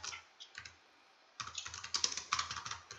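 Typing on a computer keyboard to enter text into the chat of a Minecraft game. A few quiet clicks are followed by a pause, then a quick run of many crisp keystrokes, with no talk.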